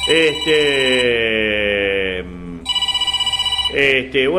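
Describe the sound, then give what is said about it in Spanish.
A telephone rings in a fast trilling burst of about a second. Loud, sustained tonal sounds come before and after it. “Nos están llamando, pero no, es difícil, ¿no? Poder atender.”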